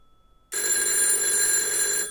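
A telephone rings on a table covered with black cloth. After a half-second of quiet, a loud, bright, continuous electronic ring starts suddenly and holds steady to the end.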